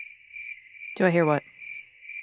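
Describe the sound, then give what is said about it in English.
A cricket sound effect chirps in steady, high, pulsing trills, briefly interrupted by a short spoken line midway before the chirping resumes. “I'm pretty sure what I just heard was the sound of a cricket sound effect.”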